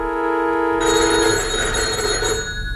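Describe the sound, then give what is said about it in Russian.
A telephone rings steadily, its bright tonal bell sustained through the whole clip and growing fuller and louder after the first moment, with no voices present. “Меня разбудил телефонный звонок.”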